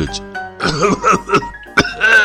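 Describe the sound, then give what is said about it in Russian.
A voice acts out a man's coughing from a cold, with several harsh, throaty coughs and throat-clearing sounds in uneven bursts. The coughs are fairly loud and have a voiced, rasping quality. “кашлять. Кашель у меня, братец. Не знаю, где простудился.”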